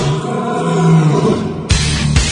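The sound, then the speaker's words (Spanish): A monstrous lion-headed dragon creature with bat wings roars. The roar is loud, deep and sustained, and a harsher, brighter burst breaks in near the end. “lo convierten en algo así como una combinación horrorosa, espantosa y desagradable, capaz de rugir desde lo alto de una montaña ubicada sobre cuatro tortugas, sostenidas por un león con cabeza de dragón y alas de murciélago.”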